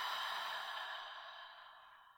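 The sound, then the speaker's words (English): A deep breath exhaled through the mouth during a guided relaxation exercise: one long, airy whoosh that starts strong and fades gradually over about two seconds, with no talk. “Start with a nice deep breath in through your nose. Let that go out of the mouth.”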